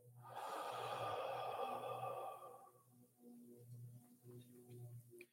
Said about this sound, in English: Big breath. Big exhale.